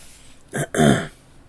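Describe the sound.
A person clears their throat in two rough bursts, a short one followed by a longer, fuller one, with no talk around them.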